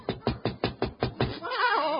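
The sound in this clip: Knocking on a front door: seven evenly spaced knocks in a steady rhythm, followed by a voice speaking.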